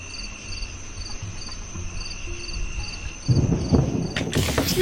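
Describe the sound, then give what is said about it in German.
Crickets chirp on a summer night in steady, rhythmic pulsed trills with a constant high ringing underneath. Near the end, a louder, rough rustling noise joins the chirping. “am Anfang hat es geklungen wie aus dem Sommer, weil wenn ich im Sommer einschlafe, dann klingt es irgendwie, dann höre ich immer diese Grillen.”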